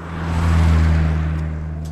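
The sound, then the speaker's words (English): Cargo trucks roaring along a road on a near-freezing night, a heavy low engine drone with a steady hum that swells and then eases slightly as they pass. “It's near freezing at night and is rarely quiet. Cargo trucks are roaring by.”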